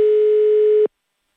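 A single telephone ringback tone for an outgoing call in a call-in prize contest, a steady one-pitch buzz lasting just under a second before cutting off abruptly into silence.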